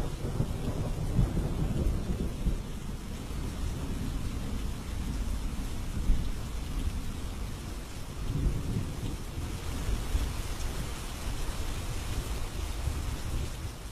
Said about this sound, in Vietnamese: Trên bầu trời, mưa gió vẫn cứ ầm ầm trút xuống.